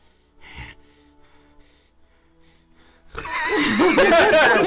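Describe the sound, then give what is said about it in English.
A voice imitates heavy, uncomfortable breathing for a terrified character in a tabletop fantasy role-playing game. One sharp gasp comes early, then a quiet stretch, then loud, strained, wavering breaths that edge toward laughter. “Breathe heavily and uncomfortably.”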